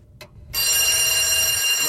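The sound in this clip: A telephone bell rings in the night, starting abruptly after a brief quiet moment and then sounding loud, steady and continuous until the end.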